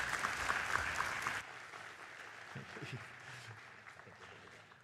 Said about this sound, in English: So would you put your hands together, give a very warm welcome to David Wells.